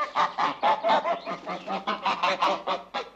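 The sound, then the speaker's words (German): Two geese honking in a stable, a loud run of many rapid, evenly spaced nasal honks with no pauses between them. “Dann sehe ich zwei Gänse.”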